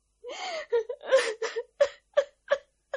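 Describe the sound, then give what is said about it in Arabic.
A woman sobbing and gasping under questioning about a crime, a loud series of ragged, wailing cries broken into many short, catching breaths, with no speech among them. “كفاية عياط بقى”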